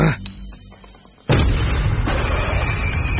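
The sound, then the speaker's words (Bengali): Mini grenade explosion on a rooftop, a sudden loud blast that cuts in after a quieter stretch and gives way to a sustained low rumble, with a second, smaller burst soon after. “Zeeshan সঙ্গে সঙ্গে রাকসাক থেকে একটা mini grenade বের করে তার দিকে”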